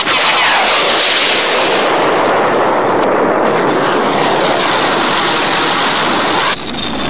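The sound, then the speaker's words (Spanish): Artillery guns firing projectiles in a war scene make a loud, dense, unbroken roar of blasts with no separate shots standing out. The roar drops abruptly just before the end. “Preparen proyectiles. 3, 2, 1. ¡Fuego!”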